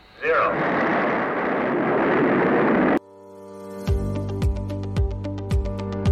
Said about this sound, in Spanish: SpaceX hace rugir al Booster 7 y os cuento la misión Magellan. ¿Preparados? 3, 2, 1, despegamos.